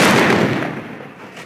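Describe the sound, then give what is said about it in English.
Bofors artillery guns firing covering fire let out a loud, broad boom at the start that rolls off and decays over about a second, with no voices. “The sound of the Bofors guns does not stop for the next 13 hours. But right now, the guns are providing covering fire to the men making their way up to the top.”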